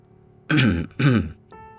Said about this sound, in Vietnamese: Cổ Lăng thấy tình thế như vậy thì khẽ hắng giọng một cái